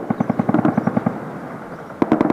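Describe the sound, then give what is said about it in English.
Rapid, evenly spaced pulses of machine-gun fire from Ukrainian-made helicopter gunships pounding hillside villages, a loud chattering run of about a second, then a lull of rough noise before another short burst. “two Ukrainian-made helicopter gunships. For more than two straight hours, the scattered villages that dot the hills around Tetovo were pounded with machine gun fire from the choppers.”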